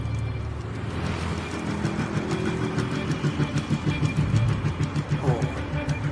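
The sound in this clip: Engine drone of a Mercedes-Benz car being driven, a steady low hum that takes on a faint rhythmic pulsing in the second half, with no voices over it.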